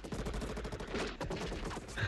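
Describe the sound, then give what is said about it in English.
Rapid gunfire in a video game: dense, continuous bursts of repeated shots rattle through the whole clip at a fairly faint level. “I shoot at you now.”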